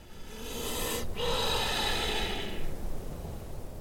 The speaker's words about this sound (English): Snakes breathe. They have lungs. Of course they do. But I never thought I'd hear it. His body inflates as he takes another deep breath.